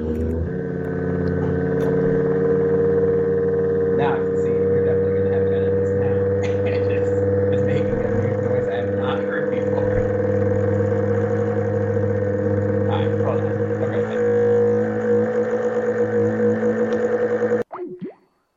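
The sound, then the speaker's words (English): A motor runs with a steady droning hum and strong low tonal harmonics, holding even for about seventeen seconds before it cuts off abruptly. Faint clicks sound over the hum. “Oh, wait, here comes the motor noise again.”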